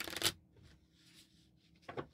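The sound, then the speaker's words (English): Playing cards riffled in a bridge shuffle, heard as two short, brisk fluttering bursts, one at the start and one near the end, faint, with quiet between them. “I'm going to do a slight bridge shuffle just so I get them upside down.”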